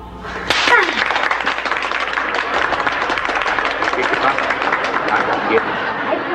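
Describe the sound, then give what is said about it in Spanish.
Applause from a group, breaking out suddenly and continuing as a dense, even patter of many hands, with murmuring voices mixed in throughout. “Es que usted se merece ese aplauso.”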